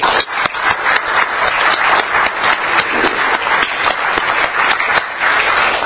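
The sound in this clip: Applause at a Rotary club meeting welcoming a guest speaker: dense, loud clapping from many hands that holds steady for several seconds without voices.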